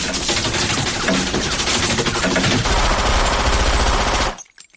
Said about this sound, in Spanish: Fuera, dos hombres apuntan al remolque con metralletas. Recargan las metralletas.